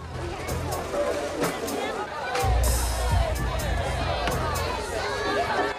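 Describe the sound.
Crowd chatter at a festival among beer tents: a steady, overlapping murmur of many voices, with a few brief, sharp clicks and knocks scattered through the babble.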